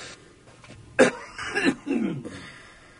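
A few rough coughs and raspy throat-clearing from someone with a scratchy throat, loud and close together, with no talk.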